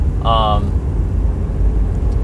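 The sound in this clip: Inside a moving car, a steady low engine and road rumble drones constantly throughout, with a short tonal blip near the start.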